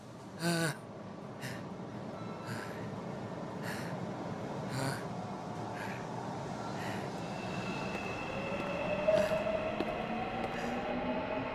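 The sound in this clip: A metro train carriage on a cold day gives off a low, steady rumble with a few scattered sharp knocks and clatters. A faint whining tone emerges near the end.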